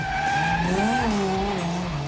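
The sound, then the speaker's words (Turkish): Tyres squeal as a car drifts sideways across wet ground, a loud, unbroken whine whose pitch wavers and bends through the whole stretch. “Bu kadar fazla ve uzun süre yanlama yapabilmeni beğendim.”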